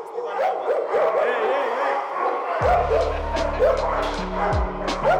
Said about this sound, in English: That sound you hear? These are dogs, about 90 of them.